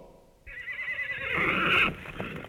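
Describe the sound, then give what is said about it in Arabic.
A horse neighs in one long, loud, shrill whinny that holds for over a second, then falls away into a few softer snorting sounds. No voices are heard. “حصان حصان حصان حصان.”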